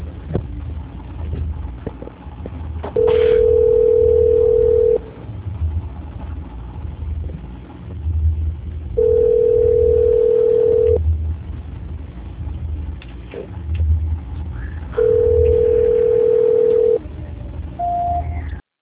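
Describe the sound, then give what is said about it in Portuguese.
Telephone tones play while a call is transferred: three long, steady mid-pitched tones, each about two seconds, repeat at even intervals over a low background hum, and a brief higher beep sounds at the end. “Só um minuto, por favor, vou transferir a sua ligação.”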